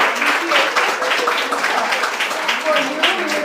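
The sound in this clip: A round of applause at a presentation during a group meeting: steady, dense clapping that carries on evenly with voices talking over it.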